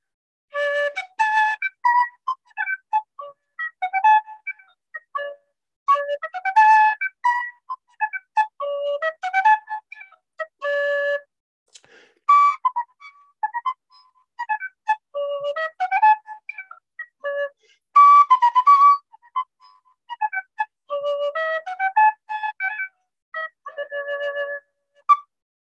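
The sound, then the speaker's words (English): A Tudor Dordrecht recorder made by Pucker plays a couple of short tunes: clear, bright, whistle-like melodic notes in many quick phrases separated by brief pauses, alone with no voices. “This is a proper Pucker Tudor recorder. This is called a Dordrecht recorder.”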